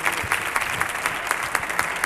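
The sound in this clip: A radio show's studio audience applauds its guests with brisk, continuous clapping that stays full and even through the brief moment, with no voices on top.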